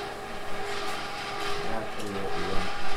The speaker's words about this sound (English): That sound of the ice cream maker?